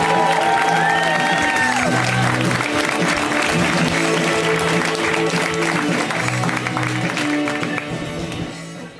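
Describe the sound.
Applause and cheering from a stand-up comedy crowd welcoming a comedian to the stage: a dense, sustained roar of clapping with scattered whoops that fades off near the end.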